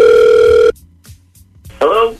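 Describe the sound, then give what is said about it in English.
One steady, loud ringback tone sounds on an outgoing phone call, then cuts off; after a short pause a voice answers. “Okay, so we're going to give him a call right now, okay?”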